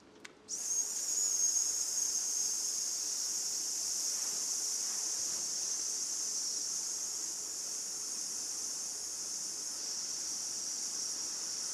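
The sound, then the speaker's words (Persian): A voice imitating a tyre going flat during a breathing exercise: a long, steady breath blown out as a loud, even hiss that starts abruptly and holds for about eleven seconds. “این سری با من انجام بدین، یه نفس عمیق میگیریم و بعد شروع میکنیم به خروج هوا به شکل اینکه یک چرخ داره پنچر میشه.”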